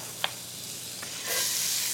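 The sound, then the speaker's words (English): Onion sizzling as it goes into melted butter in iron skillets: a soft, steady frying hiss with one sharp click early on, then a fuller, louder sizzle that holds to the end. “I've got some butter going in two separate iron skillets. So I'm going to add half the onion to each one,”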